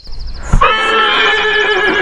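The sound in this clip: A horse neighs: a sharp thump, then a loud, sustained, high whinny that rings on with a bright, tonal quality until the end.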